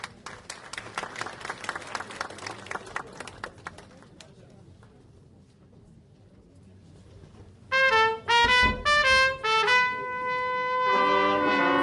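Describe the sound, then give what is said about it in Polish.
An audience applauds at a medal ceremony marking a county's fifteenth anniversary. The crackling clapping tapers off into quiet, then a brass band strikes up with loud, sustained chords. “a teraz ponownie muzyczny występ w wykonaniu zespołu Mrągowia Brass. Poproszę o duże brawa.”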